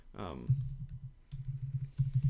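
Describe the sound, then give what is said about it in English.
Typing on a computer keyboard while searching for a book: rapid clusters of key clicks in a few bursts, following a brief voice at the start. “I cannot type and talk apparently at the same time.”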